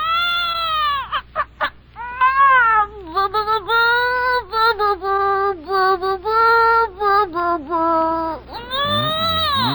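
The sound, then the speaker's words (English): A voice imitates a baby's crooning lesson as a radio sound effect, producing warbling, wailing tones like a meowing cry. The tones come in bursts that break off and start again, some held and some quickly repeated. “Well, that's Bing Crosby's new baby getting his first crooning lesson.”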